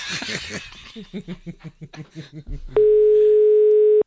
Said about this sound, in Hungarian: Nem veszi föl, hívunk más.